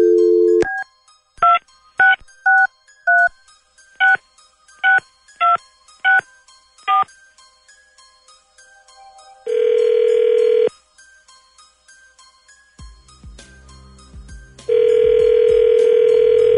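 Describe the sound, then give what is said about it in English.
Telephone keypad tones beep out a quick series of short, bright dialing bursts, then two long, steady ringback tones follow with a quieter stretch between them. “let's call him, and then we'll see if he answers real quick. Dialing at random.”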